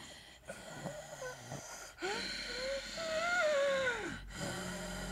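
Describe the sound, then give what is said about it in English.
A voice imitating heavy, audible breathing like someone standing close in an elevator, a few drawn-out, wheezy breaths with whistling, whiny tones that rise and sag, quiet and with no talk over them. “I hate an audible breathe. I cannot tell you how weird and disturbing it is when you're standing in an elevator with someone and you just hear...”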